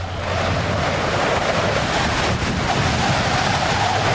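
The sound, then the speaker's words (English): A polar wind sound effect, a loud, steady roaring rush of wind that holds at an even level throughout, without gusts or breaks. “That's my polar sound effect”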